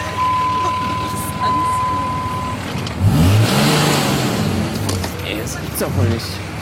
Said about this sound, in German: Wir fahren jetzt an.